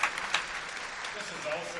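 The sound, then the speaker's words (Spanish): Applause at a Sunday church gathering, a fairly quiet, steady patter of clapping with a couple of sharper claps near the start. “Un aplauso.”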